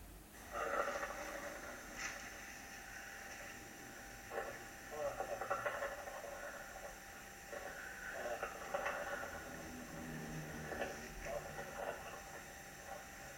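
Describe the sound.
The death rattle of a dying man: faint, rough, gurgling breaths that recur every second or so over a steady hiss, low in level throughout.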